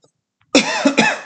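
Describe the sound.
A man coughing with something stuck in his throat: a short, harsh, rasping burst after brief silence, breaking into a few throaty pulses, loud and alone.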